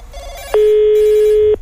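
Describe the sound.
A telephone rings with a single loud, steady, mid-pitched tone lasting about a second, preceded and followed by faint background noise.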